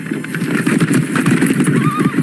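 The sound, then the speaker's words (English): A horse in a western setting whinnies loudly while its hooves clip-clop in a busy, uneven rhythm. “That's a mighty nice horse you got there, mister.”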